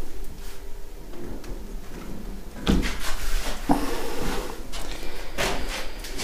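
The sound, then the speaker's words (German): Living room windows being closed, with a couple of sharp clunks and rattles from the frames over a low, steady background rumble. “So, dann schließen wir mal jetzt auch im Wohnzimmer die ganzen Fenster.”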